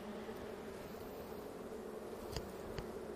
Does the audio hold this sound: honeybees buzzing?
yes